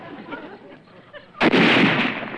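Artillery fires during a battle: after a stretch of quieter sounds, a sudden loud blast hits midway and rolls into a sustained, roaring rumble.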